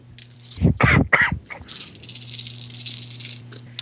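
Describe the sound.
Dice roll during a tabletop role-playing game: a brief, loud rattling clatter, then a few quieter ticks over faint background hum.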